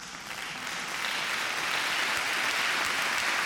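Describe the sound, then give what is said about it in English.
Dense audience applause greeting a vocal group of men from Folsom before they sing, a continuous wash of many claps that swells within the first second and then holds steady and loud. “So everybody out there in the audience, give it up for the Ransom Notes.”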